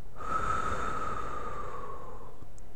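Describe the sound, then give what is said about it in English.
One long, deep breath taken during a guided breathing exercise: a steady, airy rush lasting about two seconds with a faint whistling tone running through it. “Let's begin with three deep breaths in and out,”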